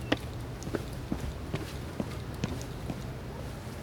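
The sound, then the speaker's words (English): Footsteps of someone walking down steps: a faint, regular series of soft treads at an even walking pace over a low background hiss. “All right, let's keep moving. Let's walk down the steps and head to our right.”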